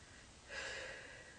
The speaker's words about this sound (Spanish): Ahora respira profundo, profundo, profundo, profundo. Respira lo que más puedas.